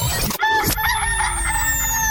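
A rooster crows in a single loud, strained call with a harsh onset. It is heard alone, without voices.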